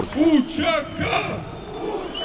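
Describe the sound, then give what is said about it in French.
Crowd chanting a slogan amid Kosovar and Albanian flags: many voices chant together in loud, rhythmic bursts that are strongest at the start and then ease into a steadier, lower roar. “Au milieu des drapeaux kosovars et albanais, la foule scande « La liberté a un nom, Ucheka ».”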